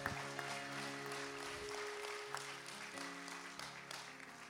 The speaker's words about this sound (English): All those churches are in today and around the grounds. Give yourselves a hand.